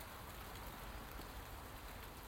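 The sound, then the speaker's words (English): Steady rain falls straight down on a grey morning, a faint, even hiss of drops with no breaks or changes. “But it's that wonderful, wonderful straight down rain.”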